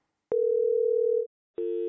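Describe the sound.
Electronic telephone tone for an incoming reservation call: a steady mid-pitched tone holds for about a second, breaks off, then a second, buzzier tone begins and runs to the end.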